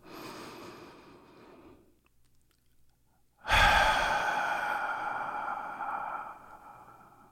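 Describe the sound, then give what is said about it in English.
A deep breath: a quiet, airy breath, a short silent pause, then a much louder, long breathy sigh that slowly fades. “let's take a deep breath.”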